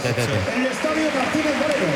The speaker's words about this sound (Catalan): Aplaudeix ara el públic perquè ens estan donant la dada d'assistència.